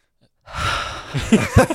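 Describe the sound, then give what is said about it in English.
A voice imitates a kid gasping for breath after gulping down squash: silence, then a drawn-out breathy gasp followed by a few sharper, louder bursts of breathing near the end. “literally kids would run up to it they wouldn't breathe for 30 seconds while they're literally downing like 4 liters of squash, and they just go.”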